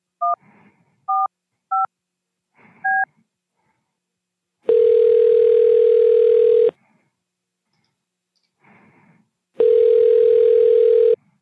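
Telephone line tones play during a transfer to an automated phone system. Four short touch-tone keypad beeps come first, then two long, loud, steady tones separated by a pause, with faint low noise in the gaps.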